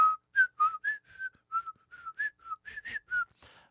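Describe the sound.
A person whistles a string of about a dozen short, breathy notes whose pitch wavers up and down, clear and moderately loud with small gaps between them.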